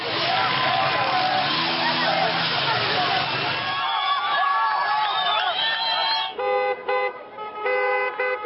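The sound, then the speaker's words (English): Street protests over soaring oil and energy prices fill the air with crowd hubbub, shouting and cheering voices and repeated car horn toots, the noisy scene shifting partway through. “Well, protests are gripping countries around the globe as the price of oil continues to rise. From Nigeria to Syria and Pakistan, people are reacting to their energy costs soaring. Here's the sound of some of those protests worldwide.”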